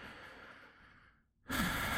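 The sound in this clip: A deep breath during a guided tapping exercise: a long, breathy rush that fades to near silence, then another loud breath starts abruptly.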